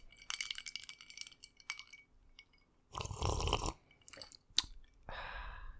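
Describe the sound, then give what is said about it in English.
Mouth sounds as whiskey is sipped in a casual ASMR attempt: a few short, wet slurping and swallowing noises with one longer, noisier burst midway, and no talking. “Ann's about to take a sip of this whiskey.”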